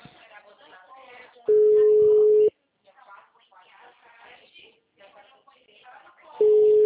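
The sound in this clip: An unanswered phone call ringing: a steady, mid-pitched ringback tone lasts about a second, a second tone starts near the end and is cut off, and people talk quietly before, between and around them.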